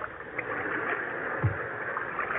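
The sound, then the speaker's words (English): Oars dip and splash as islanders row small boats out toward a ship anchored off the islands. Water gurgles and laps steadily, with one louder splash midway and no voices. “They dropped anchor off the islands and waited for the islanders to come out in boats. Look at them, coming out in boats, Captain.”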